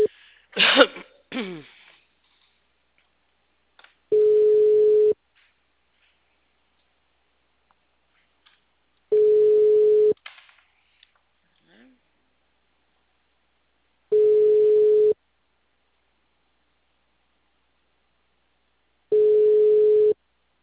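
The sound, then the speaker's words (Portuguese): Telephone tone on an outgoing call to a client: four steady, mid-pitched beeps, each about a second long and spaced roughly five seconds apart, following brief clicks and handling noise at the start. “Grave seu recado agora. O número está ocupado.”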